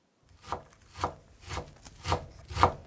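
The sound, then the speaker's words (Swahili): Five evenly spaced knife chops strike a wooden board while onions and mushrooms are cut, each a soft, dull thud with a short crunch, steady in rhythm and alone. “Kwanza tutakatakata vitunguu na uyoga. Katakata vitunguu kiurefu kwa mpishano wa takribani milimita 2 kisha ukikate kuanzia pembeni vipande vidogo vidogo.”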